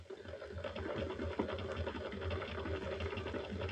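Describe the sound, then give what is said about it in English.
A specially built electric pump switched on and running, giving a quiet, steady, rapid mechanical whirr with a fast, even pulse throughout. “Inject it? No, pump it. I built this pump especially for it.”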